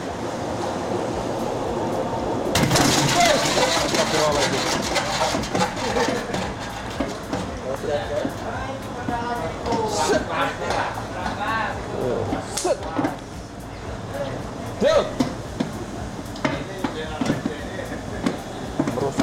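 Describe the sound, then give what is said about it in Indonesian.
A homemade spinning machine drying sliced onions starts up after a short pause and keeps going as a loud, rattling whirr with scattered clatters, while a person talks throughout. “Lanjut, masukkan bawang yang sudah diiris ke dalam mesin putar untuk meminimalisir kadar air yang masih terkandung pada irisan bawang. Nyalain dan tidak boleh jauh-jauh. Ini buatan sendiri.”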